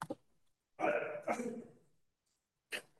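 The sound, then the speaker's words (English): Throat clearing rasps out during a board meeting's public comment period, a long, harsh voiced rumble in two surges that stands alone, with short sharp bursts just before it and another near the end. “Really? Throat clear?”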